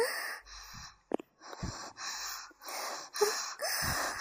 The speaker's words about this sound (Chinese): 我已经听到你粗重的呼吸了哦